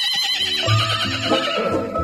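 A horse neighs in one loud, drawn-out whinny lasting about two seconds. The call has a wavering, shrill tone and is heard alone, with no talk.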